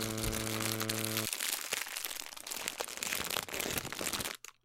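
A snack bag crinkles and crackles in a dense, continuous rustle after a short steady tone, then the sound stops abruptly.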